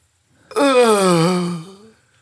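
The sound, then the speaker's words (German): A tennis player's long, drawn-out voiced exhale while hitting the ball, a single moaning tone lasting about a second and a half that sinks slightly in pitch before trailing off. “Der eine, der so ein schnelles macht, der andere, der so ein langgezogenes,”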